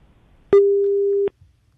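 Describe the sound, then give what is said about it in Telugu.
During a radio call-in, a telephone line gives a single steady, mid-pitched electronic beep lasting under a second. It starts and stops abruptly, with near silence before and after. “Akashvani శ్రోతలు, phone ద్వారా కోరే cinema పాటల కార్యక్రమం వింటున్నారు మన తర్వాతి caller.”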